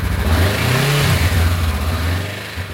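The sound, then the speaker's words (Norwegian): A motorcycle engine revs loudly and continuously, its throaty roar swelling briefly in pitch before easing off slightly toward the end. “De siste månedene har motorsykkelen stått parkert I garasjen. Nå ser hun frem til å kaste krykkene og tilbringe sommeren på 2 hjul.”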